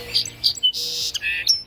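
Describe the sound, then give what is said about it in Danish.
Song sparrow singing: a short phrase of a few bright, high whistled notes followed by a buzzy burst and more clear whistles, heard alone. “Det er lyden af en sangspurv, som er blevet set.”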